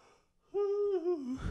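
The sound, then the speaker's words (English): A single long, voiced yawn, drawn out and fairly loud, whose pitch slides downward before it ends in a breathy exhale. “if your podcast is that boring where it's making you yawn, imagine the poor people watching”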